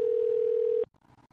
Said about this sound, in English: We are calling a phone number.